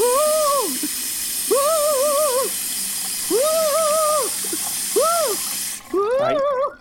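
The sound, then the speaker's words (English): Water runs from a faucet in a steady hiss while someone with their head under the stream makes several drawn-out, wavering humming sounds. The water cuts off shortly before the end. “I need you to put your head under the faucet.”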